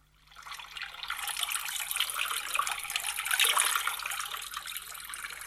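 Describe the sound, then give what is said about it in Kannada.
Rain falls as a steady, rushing hiss of water that swells in after a quiet start. It then holds fairly even and dense, with no voices over it. “ಅಕ್ಕ ಮಳಿ ಬರಾಕತ್ತದೇನು? ಮಳಿ ಬರಾಕತ್ತದ.”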